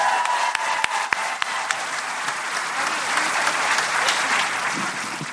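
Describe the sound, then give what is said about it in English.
Audience applause after a comedy music duo's performance: dense, sustained clapping from a crowd, with a few sharper individual claps standing out early on before the applause slowly thins. “Round of applause.”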